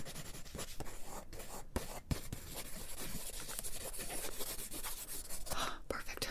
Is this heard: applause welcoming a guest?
no

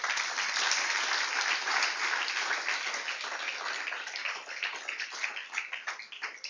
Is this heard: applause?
yes

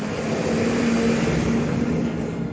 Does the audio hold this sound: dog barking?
no

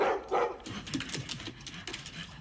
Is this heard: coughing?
no

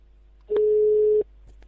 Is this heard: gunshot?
no

